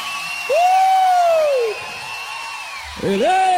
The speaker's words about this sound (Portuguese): pode aplaudir o senhor!